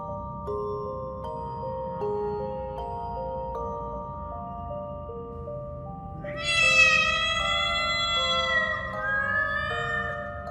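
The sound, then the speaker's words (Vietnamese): Several cats meowing at once, drawn-out, wavering yowls overlapping one another, breaking in loudly after a long stretch of steady, sustained tonal drone. “Tiếng mèo kêu làm cho Hương giật mình. Nghe kỹ lại thì không phải chỉ một con mèo,”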